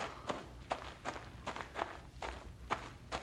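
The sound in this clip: Footsteps of people walking along together, a steady, even series of soft thuds at a relaxed walking pace. They are faint and heard alone, without talk.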